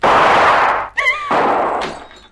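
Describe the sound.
A rifle shot smashing a window pane: a loud, noisy burst of crashing glass, then a short high tonal sound and a second burst of shattering that fades away.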